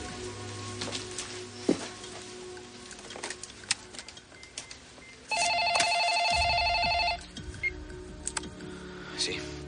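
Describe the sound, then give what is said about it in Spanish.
Telephone ringing heard by the caller while she places a call from her office desk: one ring of about two seconds, clear above a soft, rustling background noise. “Descolga el teléfono y llama.”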